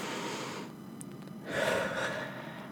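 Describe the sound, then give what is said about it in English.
One deep breath drawn in during a counted breathing exercise: a quick, airy gasp-like inhale that swells in the middle, moderately loud and alone without speech. “Now 1 deep breath.”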